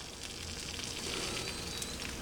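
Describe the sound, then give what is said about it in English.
An egg sizzles as it cooks in a mold, giving a continuous, even, bright hiss with faint crackles throughout and no voices. “So what I'm going to do is crack an egg and kind of get the egg white on the top because it is not going to look like the picture. And yeah, it's coming out the bottom.”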